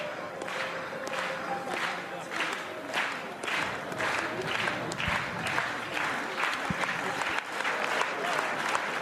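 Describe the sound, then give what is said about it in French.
Stadium crowd at a women's athletics meet clapping in a steady rhythm to encourage the sprinters and long jumpers, many evenly spaced beats of massed hands over a continuous crowd murmur. “Et le public qui encourage, bien sûr, en même temps”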